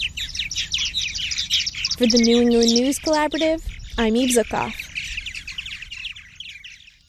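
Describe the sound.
Birds calling outdoors, with many quick chirps and tweets running through the whole stretch. A person speaks briefly in the middle over the birdsong.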